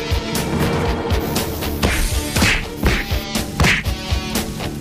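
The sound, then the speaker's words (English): Heavy punches to the face land in a fight in a muddy farmyard: many loud thwacks and swishes in a rapid, irregular series across the whole stretch. “He charges and hits 13 with a series of punches to the face.”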